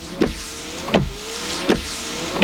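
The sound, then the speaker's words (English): Car windshield wiper blades moving back and forth, with a motorized whir and a few regular swishing strokes that repeat at a steady, even pace, alone without voices. “It's Rain-X wiper blades.”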